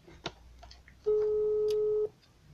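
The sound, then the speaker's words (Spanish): An unanswered phone call's ringback tone: a single steady mid-pitched tone of about one second, preceded by a faint click. “Pues no contesta. contesta. No contestó. Márcale otra vez.”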